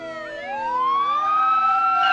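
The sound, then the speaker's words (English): Police car sirens wail as two police cars pull up across a street. Several overlapping siren tones rise and sweep upward in pitch, loud and continuous throughout. “Later, Kevin's watching from the safety of his house as two police cars pull up across the street.”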